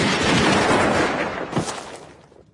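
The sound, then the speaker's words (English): Firing squad gunshots: a loud, dense volley of shots that blurs into a sustained roar, with a further sharp crack, then a fading rumble into near silence. “Aim! Fire!”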